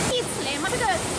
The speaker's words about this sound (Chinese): 这个夏天，浪状瀑布游人如织